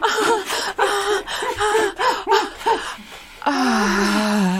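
A man strapped down gasps for breath after being smothered, with a rapid series of short voiced gasps and pants, a brief pause, then a longer drawn-out voiced breath.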